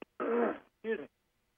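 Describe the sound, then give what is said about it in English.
Someone with a sore throat clears it in two short, rough bursts. The first is longer and the second briefer, and then silence follows. “Excuse me. Got a little throat thing going on here, but I got a lozenger in case I need it.”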